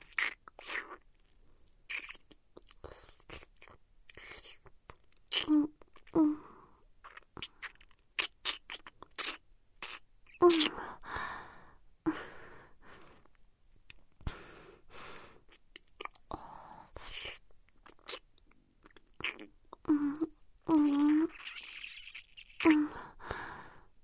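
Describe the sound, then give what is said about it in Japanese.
Wet licking and mouth sounds, close and intimate: many short smacks and soft clicks in an irregular rhythm, mixed with quiet breathy sighs and whisper-like exhalations. “ほら、このまま舐めますよ。”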